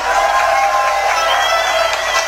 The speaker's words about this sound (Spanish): Fuertes aplausos para él.